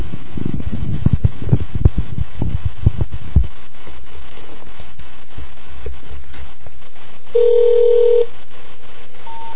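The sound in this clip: Telephone keypad dialing a number with a caller-ID blocking code: a run of sharp clicking button presses fills the first few seconds, followed later by a steady electronic tone lasting under a second.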